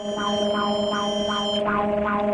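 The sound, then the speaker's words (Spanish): Mexico's seismic alert siren sounds during the national earthquake drill, a loud, steady alarm tone with bright harmonics and regularly repeating swoops that continue throughout. “En este momento está sonando la alerta sísmica con motivo de la realización de este segundo simulacro nacional 2026 organizado por el Gobierno de México”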